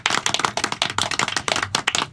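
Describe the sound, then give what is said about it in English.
Brisk applause from an audience. Many rapid, overlapping hand claps build a loud, crackling patter that lasts for about two seconds. “Yes, a whiff of applause there, yes.”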